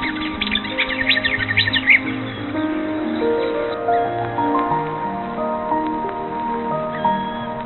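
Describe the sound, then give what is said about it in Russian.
Marsh warbler song, with fragments mimicked from other birds: rapid, bright chirps and trills in the first two seconds, then sparser, quieter calls over a steady low background hum. “Кустарниковая или болотная камышовка любит скрыться в зеленых изгородях и ивовых зарослях. Свою нехитрую песню она украшает отрывками, взятыми у других птиц.”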